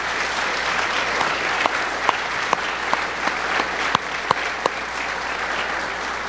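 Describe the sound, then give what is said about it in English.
Church audience applause at a Family Sunday service: steady, dense clapping from many hands, with a few sharper individual claps standing out above the wash. “And so can we just give them all just a big round of applause?”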